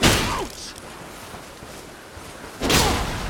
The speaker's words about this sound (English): I guess the greatsword is our biggest weapon. Let's put it in two hands. Give him a heavy attack.